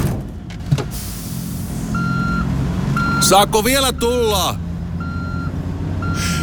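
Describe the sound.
A vehicle reverses with repeated, evenly spaced high electronic beeps over a steady engine hum. A voice briefly calls out partway through.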